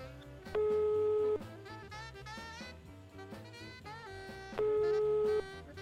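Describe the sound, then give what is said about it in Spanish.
A phone call rings through as two long, steady, mid-pitched tones separated by a pause, sounding over busy background music. “¿Le está llamando? ¿Están llamándolo? Sí, lo están llamando.”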